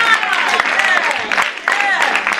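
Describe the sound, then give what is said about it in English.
Church audience clapping hands in praise, loud, dense clapping mixed with excited voices calling out over it. “Give the Lord a hand clap of praise. Hallelujah.”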